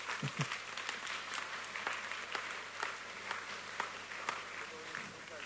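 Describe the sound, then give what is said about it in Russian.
Applause from a group in a workshop after everyone has picked a role. The clapping is soft, dense and steady from start to finish, with faint crowd murmur beneath it. “Похлопаем, кто выбрал.”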